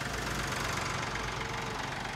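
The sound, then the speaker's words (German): Tractor engine running, a steady low rumbling drone with a rhythmic knocking beat that stays at an even level throughout, with no voices. “Bist du schon hier mit dem Trecker? Ja, ich bin mit dem Trecker.”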